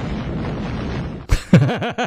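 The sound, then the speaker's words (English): An explosion sound effect amid stored junk: a rumbling, noisy blast followed by a sharp pop and a few short trailing bursts. “Was that supposed to be an explosion? Yeah.”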